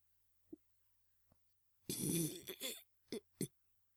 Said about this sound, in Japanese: 私のおゲップを受け取ってください。